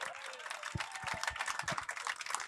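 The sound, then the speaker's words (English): Applause from the audience for a panel at the close of a live show: dense, steady clapping at moderate loudness that carries on without a break. “Give the panel a round of applause.”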